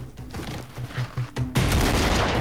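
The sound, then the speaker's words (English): Pistol gunfire from two handguns fired at once: a few soft low thumps, then a sudden loud burst of sustained, rattling shots. “Beck kicks out at two of the whip men before shooting them with a pistol in each hand”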